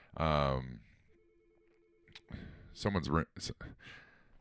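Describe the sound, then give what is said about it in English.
A telephone rings briefly with a steady electronic tone in a gap between bursts of speech, faint against the voices around it. “someone's calling. Should I answer it? I'm just kidding. No, not my office. You can't answer this phone.”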